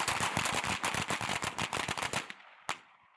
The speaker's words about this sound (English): Oh, they fired. I don't know how many rounds they shot, but that was quick.